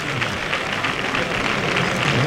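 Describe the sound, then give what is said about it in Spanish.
Bullring crowd ovation for the matador Espartaco, a dense, steady wash of clapping and crowd noise that holds at an even loudness throughout. “Agradece Espartaco la ovación que se está llevando de toda la plaza, ¿eh?”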